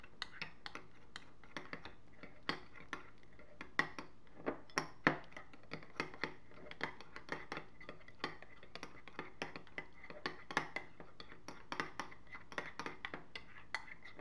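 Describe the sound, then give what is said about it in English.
Spoons clink and scrape softly as olive oil is mixed into tomato paste, with many small, irregular metallic taps and scrapes repeating faintly throughout. “And then what you want to do is just keep mixing until the olive oil is fully combined with the tomato paste.”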